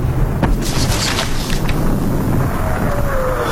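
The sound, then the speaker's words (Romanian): Distant gunfire from beyond a forest at the outbreak of war, heard as a loud, continuous deep rumble of booms with a few sharper bursts early on, and no talk over it. “Într-adevăr se trage. Parcă undeva, dincolo de pădure.”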